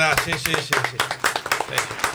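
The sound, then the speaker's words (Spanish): Clapping for a footballer: many quick, sharp hand claps in an uneven patter, with voices talking over the opening moments. “Podemos aplaudir por Dylan Gorosito, lo venimos pidiendo hace un año.”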